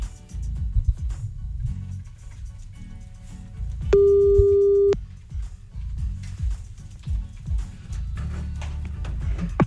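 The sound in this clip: A telephone line tone sounds as a call is placed in the early morning: a single steady, pure tone lasting about a second, standing out over a busy background bed.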